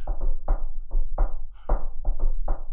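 Knocking on a table: a rhythmic series of many dull, sharp knocks separated by short gaps, loud and heard alone.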